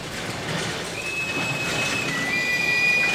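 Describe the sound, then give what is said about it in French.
A train travels along rails with a steady, broad rumble, joined midway by thin, high wheel squeals that persist and grow slightly louder toward the end; no one speaks. “il me reste maintenant à rejoindre par le train la Transylvanie”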